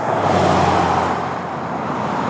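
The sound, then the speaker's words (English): A car driving on a road gives a steady, broad rumble of road noise over a low engine hum. The level eases slightly partway through, and no one speaks. “Francis Acuña is driving with a friend to help navigate”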